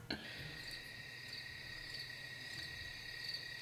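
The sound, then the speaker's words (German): Crickets chirping at night in a steady, high-pitched trill that runs unbroken throughout, faint and alone. “Naturgeräusche der Grillen.”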